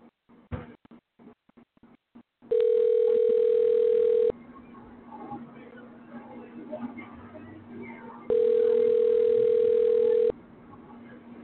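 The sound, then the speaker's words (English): Telephone ringback tone heard while calling someone: two long, steady electronic rings separated by a pause, each about two seconds. Several quick clicks come before the first ring, and a low hum continues underneath. “I'm going to call Rich and bogart him onto the show. Let's see if he answers.”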